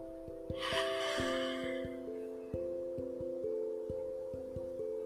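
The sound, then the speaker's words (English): A slow, deep breath drawn through the mouth makes a soft, airy rush, faint over gentle background music with steady plucked notes. “Close your eyes and take a deep breath in. Let it out through your mouth.”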